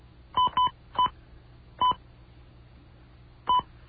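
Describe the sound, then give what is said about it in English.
Touch-tone keypad dialing into an automated phone directory: five short two-tone beeps at uneven intervals, two in quick succession, then single presses after longer pauses, with no talk. “You dialed. This is not a valid name, extension, or password.”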